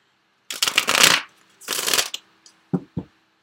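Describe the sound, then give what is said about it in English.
A Sensual Wicca Tarot card deck is shuffled in two rustling bursts, the first slightly longer, followed by two short, soft taps of the cards. “Okay, so let me get one card for you, Gemini, from the Sensual Wicca Tarot.”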